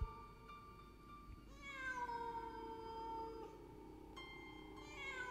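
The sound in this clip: A cat meows a few times, drawn-out harmonic calls with bending pitch, clear and without any talk around them.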